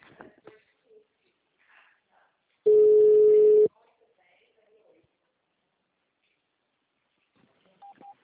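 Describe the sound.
A single telephone keypad tone sounds while a caller navigates a company's automated phone menu: one loud, steady, pitched beep lasting about a second, standing alone, with brief faint voice fragments before and after it.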